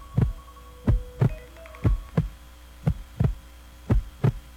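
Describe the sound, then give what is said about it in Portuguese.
A heartbeat throbs in five even double thumps, each a deep pair of pulses, repeating at a steady calm pace over a faint low hum. “agora você vai se abraçar ao som desse coração.”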